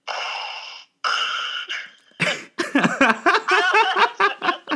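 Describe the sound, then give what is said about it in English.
A voice imitates a masked villain's mechanical breathing with two long, hissing breaths, then breaks into short, breathy vocal bursts like laughter. “you hear a... Darth Vader breathing. Oh, I mean, yeah. Everyone knows that one. What does that sound like again?”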